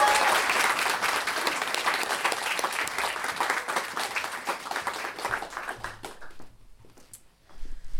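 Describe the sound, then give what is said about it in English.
Audience applause welcoming a performer to the stage: loud, dense clapping that gradually thins and fades after about six seconds, then a short burst of claps returns at the very end. “a big round of applause welcome to the stage”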